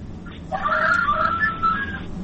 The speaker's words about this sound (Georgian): მამლის ყივილი უკვე გავიგონე და თქვენ გესმით ჩემი.